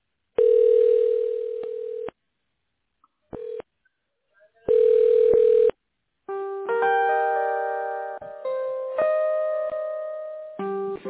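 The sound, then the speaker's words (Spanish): Telephone line tones play while a call is being transferred: a few steady electronic tone bursts separated by silent gaps, then a run of stepped, multi-pitched tones. “me permite un momento en línea mientras transfiero la llamada”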